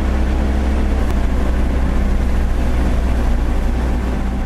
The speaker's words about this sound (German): Ich mache jetzt das Mähwerk an, genau. Warte, bis es die richtige Drehzahl hat.